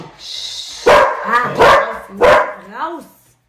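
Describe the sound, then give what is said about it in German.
A dog barks a few times in loud, sharp bursts, followed by a softer, whiny vocal sound at the end. “Das ist mein Hund.”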